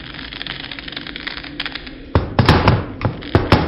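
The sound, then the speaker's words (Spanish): Someone stumbling into a chair: after a stretch of low, quiet rustling, a burst of loud, irregular thumps and knocks fills the second half. “He tropezado con una silla que había tirado aquí en medio.”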